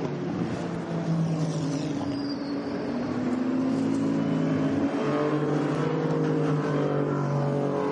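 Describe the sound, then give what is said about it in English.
Racing cars roar through the Porsche Curves at Le Mans during a three-hour championship race, a continuous engine drone whose tones sweep up and down as the cars pass, with no voices. “As they come through Porsche curves at the moment, good to see that we're going back racing.”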